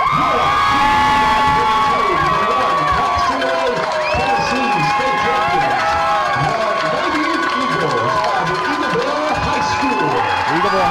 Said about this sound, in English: And I want you to listen to this crowd as you're going to hear them erupt.